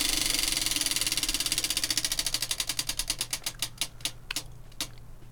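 A prize wheel spins with a rapid stream of clicking ticks. The ticks gradually slow and spread apart until the wheel comes to a stop.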